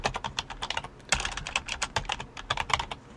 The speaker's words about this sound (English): for some reason, I always have to type yours in. I can't just click it from the list.